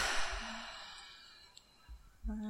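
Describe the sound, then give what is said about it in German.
A soft breathy exhale through the mouth during a breathing exercise: a quiet rushing hiss that starts strong and fades away over about a second, followed by a few faint low thumps. “Die Luft kurz anhalten und durch den Mund wieder ausatmen.”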